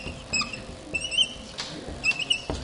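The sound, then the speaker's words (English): New pens squeak as they write: several thin, high-pitched squeaks come in short strokes, with soft scratchy patter between them. “Russell kindly got me some new pens that actually write, but you've noticed there's a little extra squeaking feature to them.”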